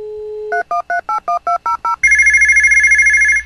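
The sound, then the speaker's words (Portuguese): Telephone tones as a call is placed to the company Micro Power: a steady dial tone, then a quick run of short dialing beeps, followed by a loud, continuous warbling ring tone. “Vou ligar pra Micro Power pra ver o que está havendo.”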